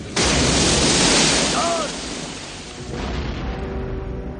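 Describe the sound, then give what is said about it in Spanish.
A loud, broad blast as a van is blown up by impulse weapon fire and plunges into water in a 1996 action thriller. The roar holds for about two seconds, then a second, duller rush of noise follows. “John se coloca ante ellos y les lanza varios impulsos que hacen volar a la camioneta y cae al agua.”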